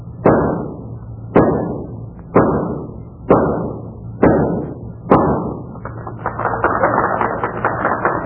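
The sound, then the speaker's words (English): Six shots from a .38 caliber revolver fired from twenty paces at a spike in a pine board, evenly spaced sharp cracks each trailing a short ringing decay, followed by a sustained, rising wash of noise. “Six shots from a .38 caliber revolver from a distance of 20 paces.”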